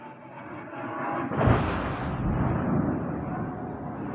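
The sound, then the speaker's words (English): Airstrikes near the Thai border: a dense, continuous rumbling roar with one louder blast-like swell early on, after which the heavy rumble holds steady to the end. “You were listening to footage of airstrikes near the Thai border posted to social media last year.”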